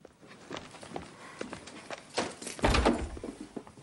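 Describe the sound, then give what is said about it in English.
A cottage door opens: soft knocks and shuffling thuds lead into a louder, heavier clunk near the end, with no talking. “opens the cottage door.”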